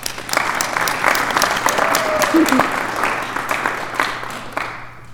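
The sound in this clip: An audience applauds to welcome a panel at a twelve-step recovery meeting, with dense, steady clapping for about five seconds that thins out at the end.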